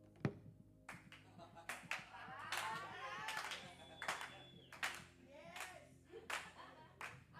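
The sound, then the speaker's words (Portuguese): Hands clapping as a preacher demonstrates during a Bible sermon: many sharp, uneven claps spread across several seconds, some in quick pairs, with a voice speaking between them. “Os problemas baterão palma pra gente.”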